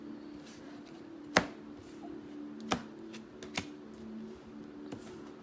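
Sharp, crisp snaps from a tarot deck being shuffled and cut come at irregular intervals, a few distinct hits in all. They are fairly quiet, over a soft, steady low hum.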